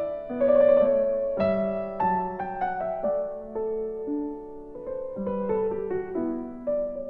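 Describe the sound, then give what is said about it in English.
Solo piano playing Bach's Goldberg Variations, with clear, sustained notes in a moderate, gentle line, some chords and phrases swelling slightly before settling back. “Bach's Goldberg Variations”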